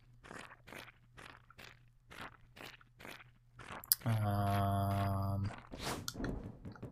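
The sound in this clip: Footsteps squelch through ooze in a video game, a steady series of many soft, crunchy steps, followed by a loud, buzzing harmonic tone lasting over a second before brief rustling.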